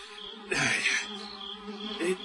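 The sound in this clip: A housefly buzzes while flies are being swatted with a flyswatter in a kitchen; a continuous droning buzz swells louder around the middle and again near the end, with no voices.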